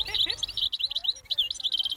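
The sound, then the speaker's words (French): A European goldfinch sings in a quick stream of bright, high-pitched twittering notes that run almost without pause, clear and fairly loud throughout. “Alors, c'est quoi cet oiseau? Cet oiseau est chardonneret élégant.”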